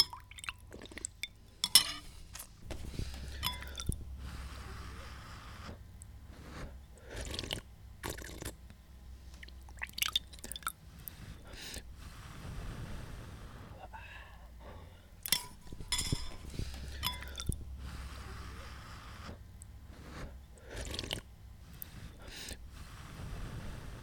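Soup being eaten at a table: faint spoon clinks against dishes and soft liquid slurps recur irregularly over a low steady hum, with many small metallic taps spread throughout.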